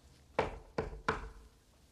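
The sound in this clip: Three sharp knocks on a door, loud and evenly spaced, each a short thud with a quick decay, heard alone with no talking.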